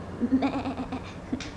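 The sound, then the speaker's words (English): A goat bleats in a long, wavering, nasal cry, followed by a brief second bleat near the end. Both are moderately loud, with no talk over them. “That is the goat, not the horse.”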